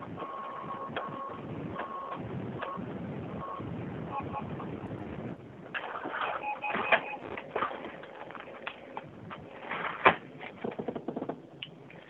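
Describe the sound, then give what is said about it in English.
Printer feeding paper and repeatedly jamming, heard over a phone call: irregular mechanical whirring, clicking and rattling with a few sharper knocks, growing busier in the second half. “Yep, it just keeps saying document jammed.”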